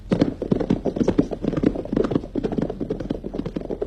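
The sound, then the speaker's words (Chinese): Horse hooves clip-clopping as riders travel on horseback, many quick, steady hoof beats in an even, trotting rhythm, loud and without talk throughout. “罗荣桓和参谋警卫员骑马赶往八纵队，八纵队司令员也骑马迎来”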